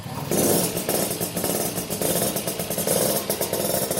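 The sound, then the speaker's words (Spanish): A Vespino moped engine running, a loud, steady rattling putter with a rapid rhythmic pulse and no voices over it. “Bueno, este es el motor de una Vespino.”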